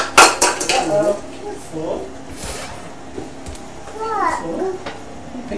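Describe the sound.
A young boy picks up and handles a metal pot, making a few sharp clanks at the start and then lighter scattered clinks, with the child's high babbling voice between the knocks.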